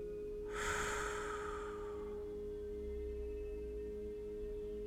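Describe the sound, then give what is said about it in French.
A deep breath through the nose during a guided meditation, heard as a single soft, breathy rush that fades over about a second and a half above a faint, steady drone. “prendre une profonde inspiration par le nez et expirer”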